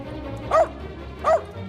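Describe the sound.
A dog barks at other dogs, giving two short, yappy barks about a second apart over a faint, steady background.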